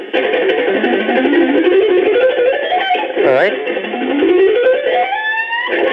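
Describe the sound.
A fast alternate-picked guitar phrase runs in quick, even notes, climbing steadily in pitch, then repeats a second climbing run after a brief slide. A short spoken remark is heard.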